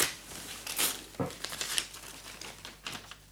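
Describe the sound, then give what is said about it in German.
Paper crinkling and tearing as a sealed letter is broken open, a quiet series of crisp rustles and a few sharper rips. “Höre, Luise, ich erbreche den Brief.”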